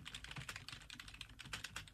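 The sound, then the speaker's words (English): Typing an address on a computer keyboard: many quick, faint key clicks in an uneven, busy rhythm, with no talk. “You type in the address,”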